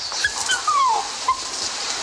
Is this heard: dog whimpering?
yes